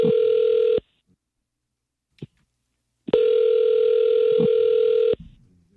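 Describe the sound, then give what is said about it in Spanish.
Telephone ringback tone while a call goes through: two long, steady mid-pitched tones, the second longer than the first, separated by a pause with a faint click in it. “¿Le puedo llamar, ¿verdad? Ya está sonando.”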